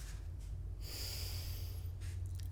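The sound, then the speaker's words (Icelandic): Deep breathing during a breathing exercise: one long, airy inhale through the nose lasts about a second, with softer breaths before and after it. The breathing is faint and steady, with no talking. “Ég ætla að byrja á örlítilli öndunaræfingu.”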